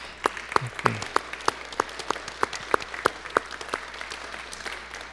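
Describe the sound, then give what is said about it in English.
Applause in a church service for people standing to be honoured for their service: many distinct, fairly evenly spaced claps, rather faint and sparse, continuing at a steady pace with no talking. “Maybe just give a round of applause to everyone that's”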